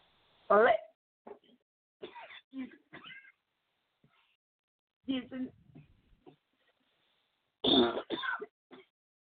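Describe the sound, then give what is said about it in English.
Coughing after a drink went down the wrong way: a few harsh coughs and throat-clearing bursts separated by quiet pauses, with the loudest fits at the start and near the end. “Forgive me, please, for the cough, but I was drinking something and it went down the wrong way.”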